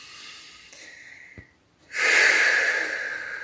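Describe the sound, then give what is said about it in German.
A deep, audible exhalation during a guided relaxation exercise: after a short quiet pause, a loud, airy rush of breath bursts out and slowly eases off, with no talking over it. “Nimm einen tiefen Atemzug und lass dich mit dem Ausatmen ruhig ein Geräusch machen.”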